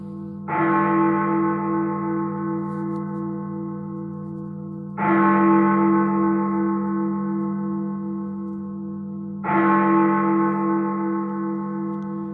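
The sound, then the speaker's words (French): Big Ben, the great bell, tolls the hour of ten with three deep, evenly spaced strikes about four and a half seconds apart, each blooming into a loud, long, humming resonance that barely fades before the next. “alors que Big Ben sonne 10 coups”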